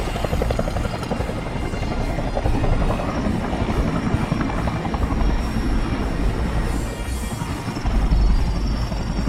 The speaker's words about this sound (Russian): Пожарный вертолет 7-4-1 идет с полной цистерной.